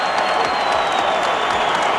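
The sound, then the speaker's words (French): A crowd gives a standing ovation at an athletics competition, cheering a Canadian silver medal. The applause and crowd noise are loud, dense and continuous, a steady roar of clapping without breaks. “Une ovation monstre. Les gens sont debout, mesdames et messieurs.”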